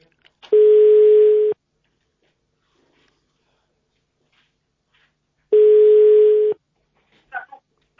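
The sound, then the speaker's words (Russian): Telephone ringback tone heard while calling someone: two long, steady, mid-pitched tones, each about a second, separated by a few seconds of silence, with a brief faint sound near the end. “Я ему звоню. Звоню, наверное, чтобы наверняка.”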